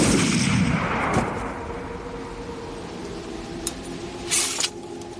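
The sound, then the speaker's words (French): A firing-squad rifle volley cracks out as one loud, sharp blast at the start, then rolls away in a long, slowly fading tail that leaves only faint noise behind. “À mon commandement ! En joue ! Feu !”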